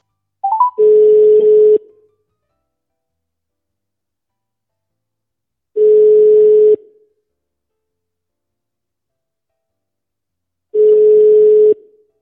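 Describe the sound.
Telephone ringback tone during a call: three long, steady, mid-pitched tones of about a second each, separated by regular silences of roughly four seconds.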